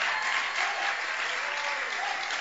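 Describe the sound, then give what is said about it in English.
An audience clapping hands in church, a continuous, evenly dense patter of many palms at a steady loud level, blending into one sustained wash of sound with no pauses. “Are you frozen by the weather? Then let your hand clap be louder.”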